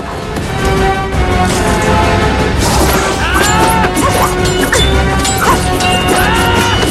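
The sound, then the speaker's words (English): Swords clashing furiously in a fight: a loud, dense clatter of metal strikes, with ringing, sliding metallic tones in the second half. “They clash furiously.”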